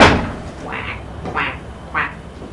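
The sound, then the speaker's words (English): Toy duck quacking in short squeaky bursts, a few nasal quacks evenly spaced after a louder first burst, heard alone without talk. “Do you know the ducky goes quack, quack?”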